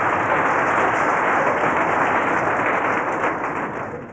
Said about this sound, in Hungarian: Hát tapsoljuk meg a vizsgázókat, köszönöm szépen